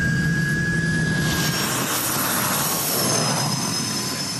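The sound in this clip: A turbine engine runs hot at around 800 degrees, giving a loud, steady roar. Thin high-pitched whining tones hold over the broad rushing noise throughout.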